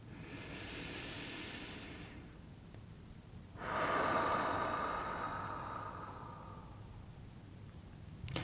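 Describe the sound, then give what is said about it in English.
A slow deep breath taken during a short meditation, heard as two long, soft, airy hissing breaths separated by a pause, faint and with no talk. “I invite you to take a breath with me.”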